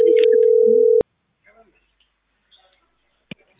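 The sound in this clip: A telephone line tone for an incoming call: a steady low beep holds for about a second, then cuts off abruptly, followed by faint clicks.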